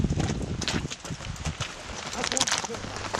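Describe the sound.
Horses' hooves clop on a steep, dangerous mountain trail as an expedition team travels behind a Kazakh guide, with many irregular thuds and scuffs of hooves on rough ground.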